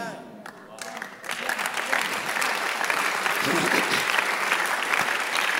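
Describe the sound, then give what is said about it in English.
A church audience bursts into applause during a sermon, a brief voice at the start giving way to clapping that builds quickly and stays loud and dense to the end. “Those of you who are not clapping, I'm waiting for you to clap for Jesus and I'll continue.”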